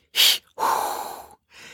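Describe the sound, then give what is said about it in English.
A voice imitates exaggerated, theatrical Lamaze breathing from a sitcom labor scene: a sharp, hissy inhale, then a longer breathy exhale, and the start of a third breath. “you have to do like the fake, horrible Lamaze breathing”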